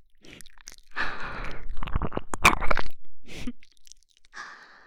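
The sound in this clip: Wet kissing on the mouth, a busy run of smacking, squelching lip noises and sharp clicks mixed with breathy sounds, easing into softer breaths at the end.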